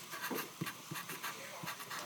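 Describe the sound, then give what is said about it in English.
Faint scratchy writing strokes during a Bible lesson, repeating in a steady series of short rasping bursts with no talking. “Let's write that in there.”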